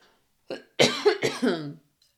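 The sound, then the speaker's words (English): Coughing and choking from a person, a short, quick series of harsh coughs: one faint, then several louder, rasping bursts close together before falling silent. “sorry, I'm choking.”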